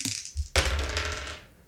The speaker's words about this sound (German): Du darfst mal würfeln